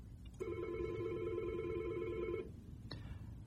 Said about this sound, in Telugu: మనకు ఒక కాల్ వస్తుందని ఒక్క నిమిషం కాల్ తీసుకుందాం.